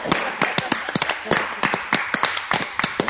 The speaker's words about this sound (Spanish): ¡Un fuerte aplauso para el señor!